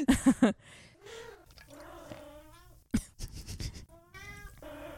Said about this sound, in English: Just in case you can hear my kitty coming through, she is meowing and purring and doing all the things she can to get my attention right now.